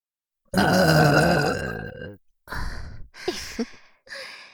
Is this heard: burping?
yes